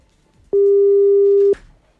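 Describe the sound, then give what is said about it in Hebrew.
A single steady telephone tone rings out for about one second, loud and alone, as a call is dialed on a line whose phone bill has long gone unpaid. “אני מחייג אליך, הנה.”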